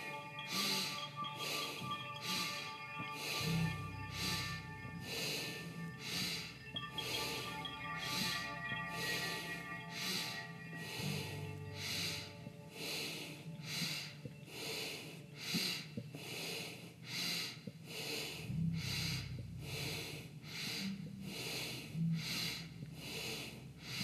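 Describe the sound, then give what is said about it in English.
Bellows breath, a forceful pranayama practice: many sharp, rhythmic bursts of breath pumped at a fast, even pace, continuing steadily through the whole stretch. “Starting bellows breath. Strong inhale. Exhale.”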